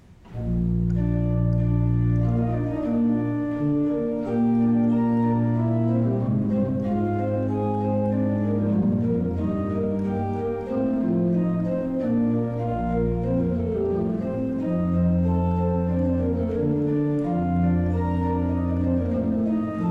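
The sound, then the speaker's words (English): Pipe organ plays a Bach chorale prelude, one of the Schübler chorales, adapted from a piece for soprano, cello and basso continuo. Sustained chords run with a moving melody and bass line, full and continuous throughout, with no talking. “I played Ach, bleib bei uns, Herr Jesu Christ, which is one of the Schubler chorales, so-called Schubler chorales of Bach.”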